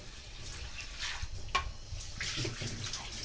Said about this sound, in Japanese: 今3回やりました。したらザルに、お水を切るためにザルにお米を移します。